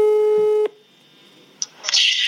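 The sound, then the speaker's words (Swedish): A telephone tone sounds while a call is placed to a friend: a steady buzzing tone holds for over half a second and cuts off, then a faint high tone and a few short noisy bursts follow. “Ska jag ringa min kompis Tessan istället, som har en religiös podd?”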